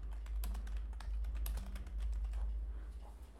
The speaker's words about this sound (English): Oh, I typed it wrong.